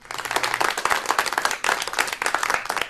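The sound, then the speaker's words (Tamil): A burst of crowd applause for a caller, dense, steady clapping that swells in a few waves over about three seconds. “இனிப்புல வந்ததுக்கு நன்றிங்க, உங்களுக்கு பாராட்டுகளையும் கொடுத்துடலாம்.”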